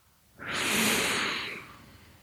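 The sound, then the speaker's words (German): A single deep, slow breath during a guided relaxation exercise for anxiety, heard alone as a soft, airy hiss that swells and then fades over about a second. “Atme noch einmal tief ein”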